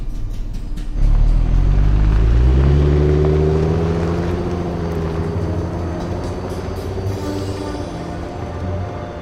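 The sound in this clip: A taxi engine as the car pulls away and drives toward the airport, a loud low rumble that swells and climbs in pitch, then settles into a steady, slowly fading drone.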